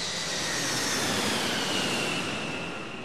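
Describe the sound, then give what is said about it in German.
A jet airplane lands at Munich airport in the Erdinger Moos with a loud, steady roar of engine noise and a faint high whine that eases slightly near the end. “als Benedikt am 9. September 2006 auf dem Münchner Flughafen im Erdinger Moos endlich landet”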